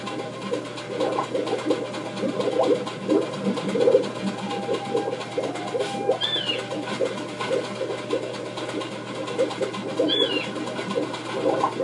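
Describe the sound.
Soft pigeon or dove cooing under a steady, hissing noisy background. Low murmuring calls recur throughout, with no voices.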